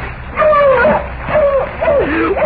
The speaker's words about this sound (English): Oh, dog, closer, closer.